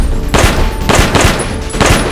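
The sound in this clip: Gunfire barrage during a street firefight: loud, sharp bursts of shots come in a few clustered volleys with short gaps between them, with no voices.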